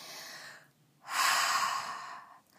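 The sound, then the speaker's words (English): A person takes a very deep breath: a softer airy breath sound, a short pause, then a long, loud, full breath lasting over a second that fades out near the end. “That was the sound of me taking a very deep breath.”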